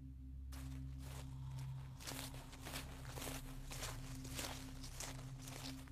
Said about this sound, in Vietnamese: đằng sau lưng của Chiến có tiếng bước chân chậm chậm đi đến